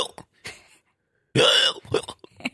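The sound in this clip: Hiccups from someone caught in a long morning bout: a few short, sharp gulping bursts separated by silence, then a louder voiced burst and smaller sounds after it.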